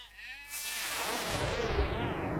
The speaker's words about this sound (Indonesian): ini lo bawa nih kambingnya